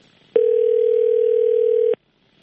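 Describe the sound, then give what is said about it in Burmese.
Telephone dial tone after a phone line disconnects: a single loud, steady, mid-pitched tone lasting about one and a half seconds, heard alone. “ကိုဥစည်ရသူတယ်လီဖုန်းလိုင်းကြားသွားတယ်ကျွန်တော်တို့ပြီးရင်ပြန်ခေါ်လိုက်ပါမယ်”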